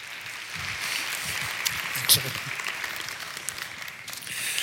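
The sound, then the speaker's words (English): A church audience applauds to welcome a speaker to the stage: continuous, moderately loud clapping with one brief sharper burst midway. “So at all our campuses, would you guys put your hands together as we welcome Rick to the stage?”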